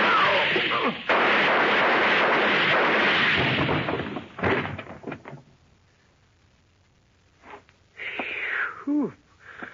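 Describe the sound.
Gunshots fired at close range with the gun held up close to muffle it: a loud, sustained burst of noise, then a few shorter, sharper bursts among quieter stretches.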